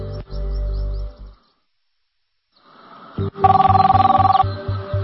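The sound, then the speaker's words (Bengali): A telephone rings while an outgoing call is placed: a rapid trilling electronic ring lasts about a second, after an earlier low rumbling noise and a quiet pause. “আচ্ছা আমার খাওয়া শেষ, আমি উঠি, এক্ষুনি আমাকে একটা phone করতে হবে।”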